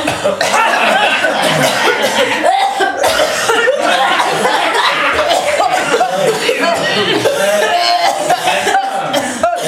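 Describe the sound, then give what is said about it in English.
Audience members cough on request at a live event, producing many overlapping coughs mixed with chuckles and laughter in a dense, continuous crowd sound. “No coughing, not sneezing. Can somebody cough, please?”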